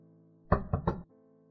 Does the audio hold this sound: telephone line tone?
no

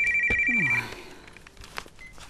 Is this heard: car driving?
no

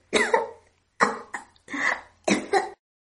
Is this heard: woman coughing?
yes

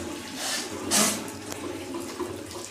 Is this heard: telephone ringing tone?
no

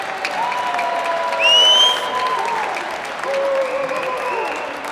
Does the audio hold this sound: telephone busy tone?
no

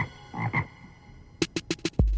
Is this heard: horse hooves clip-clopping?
no

